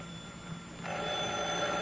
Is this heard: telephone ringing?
yes